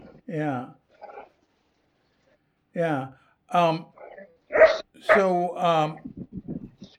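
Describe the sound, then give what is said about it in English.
A dog barks in a garden: many sharp, tonal barks and yelps come in uneven bursts with short silences between them, ending in a quick run of smaller yips. The barks are loud and clear. “How do you know what my dog barks too and comes on. yeah, this I'm in the garden, so yeah. I'm in their territory, I so like, no, it's nice to hear the dog. I like hearing the dog.”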